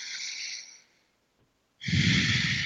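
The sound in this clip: A deep, loud breath drawn in through the mouth, then a short silence, then another loud, breathy rush of air.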